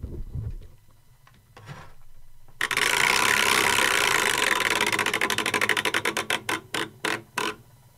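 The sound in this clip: A spinning prize wheel clicks in a rapid, dense ratchet-like rattle that gradually slows into separate, widely spaced ticks before it stops.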